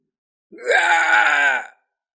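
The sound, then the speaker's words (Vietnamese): A man's miserable scream of pain during a fight: one loud, sustained cry of just over a second, rising sharply at the onset and then held at a strained pitch before cutting off, alone against silence. “Một tiếng hét thảm”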